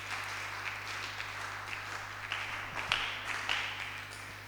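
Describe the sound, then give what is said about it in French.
Faint applause from a church assembly: soft, scattered clapping with a few sharper claps standing out near the end, over a steady low hum. “Acclamons pour la maman. Acclamons pour le Seigneur.”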